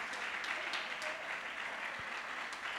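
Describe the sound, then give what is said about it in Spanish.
A church audience applauds with a dense, steady clatter of many hands that holds at an even level throughout, with no single voice standing out. “Dale ese aplauso al Rey, aleluya.”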